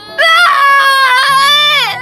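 A person wails in one long, loud, high-pitched cry that wavers throughout and dips at the end, over a faint low tonal backing.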